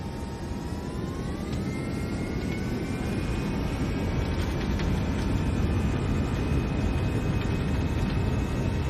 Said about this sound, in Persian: هواپیما تحت کنترل تو. تیک آف.